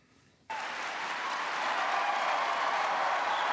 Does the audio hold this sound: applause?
yes